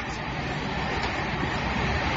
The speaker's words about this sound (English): The train is going up the hill.